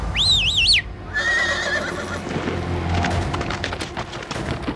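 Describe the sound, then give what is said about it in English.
A black stallion neighs in a garden: a loud, high, wavering whinny, then a shorter, fainter tonal call, followed by scattered wooden knocks and clatter. “A shimmering black stallion appeared at the edge of the garden.”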